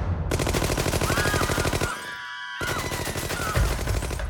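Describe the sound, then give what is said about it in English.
A volley of loud automatic gunfire from four gunmen in a restaurant: a dense, rapid stream of shots that breaks off briefly midway and then resumes just as fast. “They fired a volley of bullets, hitting Masseria in the back, head, and chest.”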